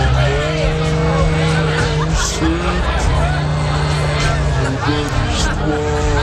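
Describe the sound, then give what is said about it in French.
Slowed-down, distorted music plays loudly and continuously, with low, warbling stretched tones and a dense, smeared texture throughout. “Vu son état, il entendait la musique un petit peu déformée, ça donnait ça”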